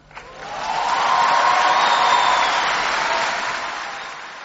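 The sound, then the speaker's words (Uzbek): An audience of about 3,000 applauds Barack Obama at his speech in Cairo. The clapping swells quickly into a full, steady roar and then gradually tapers off. “Assalomu alaykum dedi arab tilida Barak Obama uni qarsaklar bilan qarshi olgan 3000 kishilik auditoriya oldida qilgan nutqi avvalida.”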